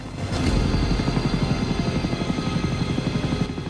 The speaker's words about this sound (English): The chopper lifts off as Alvarez's men get nearer, then flies away into the darkness.